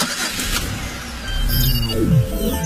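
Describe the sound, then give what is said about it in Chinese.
A car is driven with a steady low engine rumble that swells slightly louder midway, with a brief whining tone near the end and no talk. “我正开着车呢。”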